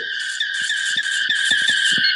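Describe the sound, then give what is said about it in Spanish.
Car skidding noise from a preinstalled app's sound clips: a steady, high-pitched tire squeal runs through the whole clip at even loudness, with short low rumbling bursts underneath. “el que viene preinstalado son varios videitos de ruidos con autos”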